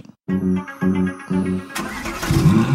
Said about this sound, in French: Alors là, j'ai sorti la Twingo du garage pour l'occasion. Vous êtes prêts ?